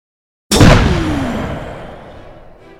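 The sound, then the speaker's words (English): A distant explosion shakes a building: one sudden, loud booming impact breaks the silence, then a long rumbling decay fades slowly over about two seconds. “the building quakes with the distant thunder of some kind of explosion.”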